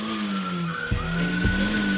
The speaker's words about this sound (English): Put it in drive. You're just revving the engine.